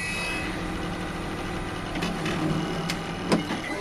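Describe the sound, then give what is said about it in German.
An Espresso Book Machine prints a cover, then glues, binds and trims the inside pages, giving a steady low mechanical hum and whir broken by a few sharp clicks and knocks toward the end. “Inzwischen druckt die Espresso-Buchmaschine schon den Einband, klebt, bindet und schneidet die Innenseiten.”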